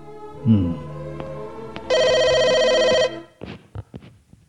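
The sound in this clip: A telephone rings in one steady, bright, warbling electronic burst lasting about a second, with brief voice sounds just before and after it.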